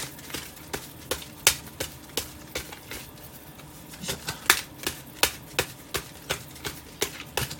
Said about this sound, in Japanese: このぐらい切ったら大丈夫かなもう一回切っとこうかな